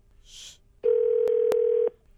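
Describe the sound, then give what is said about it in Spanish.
Telephone tones while someone dials a call: a short hiss, then a steady single-pitched tone lasting about a second, broken by two faint clicks, with no talk. “Yo estoy marcando.”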